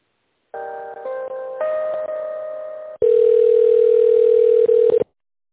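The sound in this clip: Telephone tones play while a call is being transferred: steady electronic tones that shift pitch partway through, then a louder, unbroken single tone that holds for about two seconds before cutting off.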